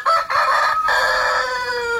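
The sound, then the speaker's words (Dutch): A rooster kept by a small-animal breeder crows once in a long, loud, strained call that holds and then trails off, heard alone without talk. “En dat was de haan van Jan-Dirk Nijkerk, voorzitter van de Kleindierliefhebbers Nederland.”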